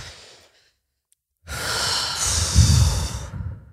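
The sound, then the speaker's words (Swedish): A deep breath is taken with the hands resting on the chest during a calming exercise. It is a long, full, airy breath of about two seconds after a silent pause, with no talk. “Och så bara tar vi ett djupt andetag.”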